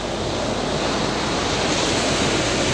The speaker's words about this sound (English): with a lot of ocean noise at the very back end of their song.